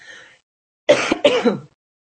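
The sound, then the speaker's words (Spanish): Throat clearing from an itchy throat: two short, harsh, raspy bursts in quick succession, fairly loud and heard alone without talk. “Es que me pica la garganta.”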